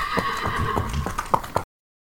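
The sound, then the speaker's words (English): Horses neighing beside a four-horse calèche, over a busy rumbling background with clopping hoof beats and a couple of sharper knocks near the end before the sound cuts off. “A calèche with four horses had drawn up beside us.”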